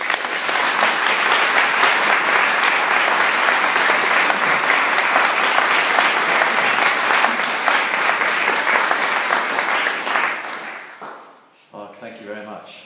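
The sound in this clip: An audience applauds to welcome the Bishop of Oxford to a Warfield evening talk on education. The loud, dense clapping runs steadily for about ten seconds, then fades out as a voice begins speaking.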